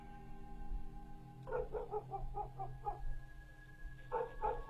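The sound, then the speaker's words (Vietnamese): A neighbour's dog barks in a quick run of sharp barks, pauses, then gives a couple more, fairly faint over a steady tonal background. “quả nhiên là chó nhà hàng xóm đã bắt đầu cắn lên nhấm nhặt”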